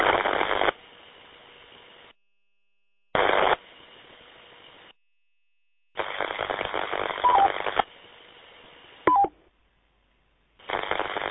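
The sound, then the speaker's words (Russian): Radio tone calling signal on a two-way radio channel: short, clear tone blips inside several hissy bursts of static that cut off abruptly, with silent gaps between transmissions. “Слышно мой тональник?”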